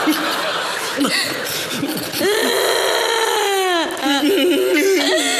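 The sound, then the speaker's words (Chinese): A person cries and sobs in high, wavering voiced wails whose pitch bends up and down, with a few brief breaks between the sobbing phrases. “别哭了啊，别哭了”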